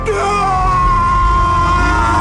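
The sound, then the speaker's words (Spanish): A man weeps in intense grief: a loud, sustained, quavering wail held almost unbroken from start to end, with no clear pauses for breath. “Ya no puede contener el llanto por más tiempo. Las lágrimas se deslizan, caen y estallan del intenso dolor.”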